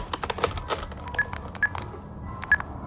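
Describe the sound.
Telephone number being dialed on a keypad, a few short, high DTMF beeps spaced irregularly among soft clicking taps, with no voices.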